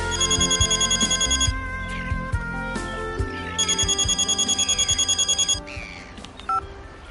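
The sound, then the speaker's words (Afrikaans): A telephone rings in two long trilling bursts separated by a short gap, the electronic ring loud over a steady tonal background. “hoekom bel jy my?”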